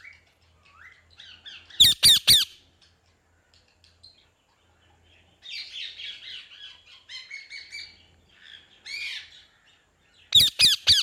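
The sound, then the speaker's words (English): A parrot squawks in harsh, sharp bursts, with a tight cluster near the start and another at the end. Softer chattering calls come in between, separated by stretches of silence. “It was a parrot.”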